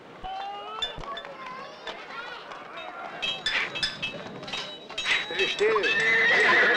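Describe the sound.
A horse neighs and whinnies repeatedly while being shod, its high, wavering calls rising over the clop of hooves and growing louder and more frequent toward the end.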